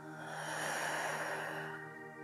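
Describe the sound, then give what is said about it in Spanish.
One deep breath exhaled slowly through the mouth, a soft, airy rush that swells and then fades over about two seconds. “Una vez más, inhala profundo. Y por tu boca exhala suelta.”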